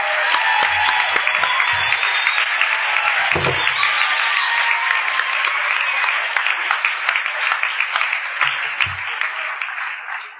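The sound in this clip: An audience applauds to welcome a speaker at a sobriety group meeting, a dense, loud, continuous clapping that holds steady for the whole stretch and fades slightly at the end.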